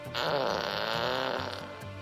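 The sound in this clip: A fart sound effect played by an Alexa smart speaker: one sustained, buzzy, low rumbling blast lasting about two seconds at a steady loud level, heard alone.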